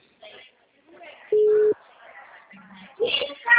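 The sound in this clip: A telephone busy tone after a dropped call: one loud, steady beep in the middle, later followed by a fainter, lower tone, with people talking before and after.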